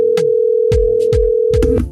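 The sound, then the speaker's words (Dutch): A telephone line tone sounding while a call is placed, a steady low continuous tone holding for nearly two seconds, with a few short bursts of other sound cutting across it before it stops. “ik ga even bellen met Bompie, kijken wat hij ervan vindt.”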